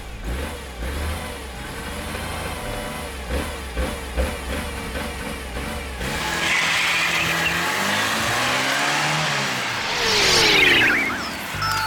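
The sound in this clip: A time machine starting up after a green button is pressed, sounding like a rumbling engine that idles unevenly, then swells into a louder revving roar with a rising surge near the end.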